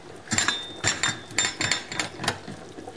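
Metal clinks and rattles as a lid is set onto a cooking pot, a quick uneven series of sharp clanks that thins out toward the end.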